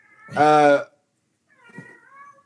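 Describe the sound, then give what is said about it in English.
A cat meows twice: a loud, clear, harmonic meow, then a short silence and a softer, wavering second meow. “the goddamn cat. Yeah, it's distracting. If I had a door, I'd shut it.”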